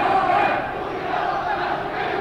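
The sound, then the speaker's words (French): A protest crowd in Portugal shouts against the colonial war: a loud, continuous mass of many voices calling together, steady throughout with no single voice standing out. “Maintenant la foule crie à bas la guerre coloniale.”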